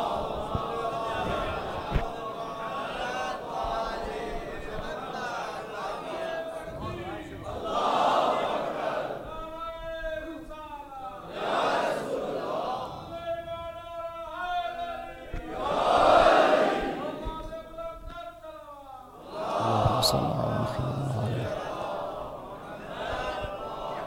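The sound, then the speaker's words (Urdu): A religious gathering's audience chants a slogan in several loud collective bursts, with a man's voice also heard between them. “اب آپ نے نعرہ لگایا”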